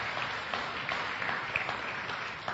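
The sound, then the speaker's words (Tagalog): A church audience applauds the Lord with steady, dense clapping that holds at an even loudness for the whole stretch, with no voice standing out. “Pwede po palakpakan natin ng Panginoon sa kanyang salita.”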